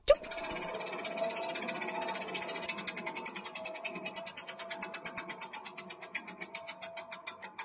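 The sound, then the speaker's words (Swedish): A lucky prize wheel is spun, its pointer ticking rapidly at first, then the clicks spread steadily farther apart as the wheel slows toward a stop. “för att vi ska ju först eh, dra i vårt ah. lyckohjul.”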